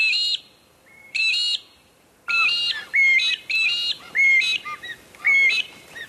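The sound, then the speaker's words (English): Magpie-lark male and female duet, a common backyard caller, with clear ringing whistled notes that repeat in short phrases at shifting pitches, bright and loud against a quiet background. “But the mystery tweeter that we were looking for today is indeed the magpie lark.”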